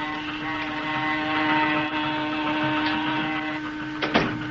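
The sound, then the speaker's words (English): Motors and a saw running aboard a boat make a steady, droning mechanical hum rich in harmonic tones, holding an even level, with a brief sharper burst near the end. “There goes the motors and the saw.”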